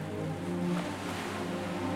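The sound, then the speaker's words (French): Calm sea waves at a seaside resort beach make a soft, continuous wash of surf with a gentle swell partway through, steady and unhurried, with no voices. “Bientôt la mer étale, et cette musique. Cette musique de vague, aujourd'hui très tranquille.”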